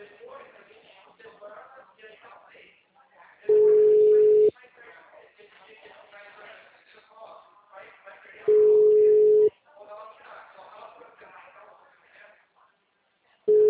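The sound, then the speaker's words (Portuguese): A telephone ringback tone plays while someone tries to call a person. It is a steady single-pitch beep about a second long, heard twice about five seconds apart with a third starting at the end, and people talk between the beeps. “Tô tentando ligar pra ele agora.”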